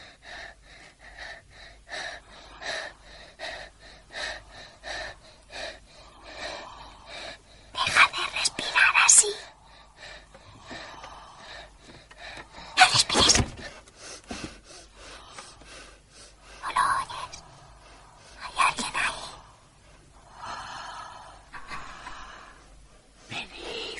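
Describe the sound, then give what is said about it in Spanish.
Heavy, ragged human breathing with sharp gasps, snorts and hushed whispering, coming in many uneven breaths with several loud, abrupt bursts between quieter stretches. “Deja de respirar así.”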